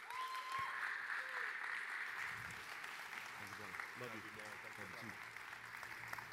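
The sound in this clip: A church audience applauds to welcome a guest speaker at a third-Sunday-of-Advent service. The clapping is sustained and fairly even throughout, and voices are mixed in during the second half.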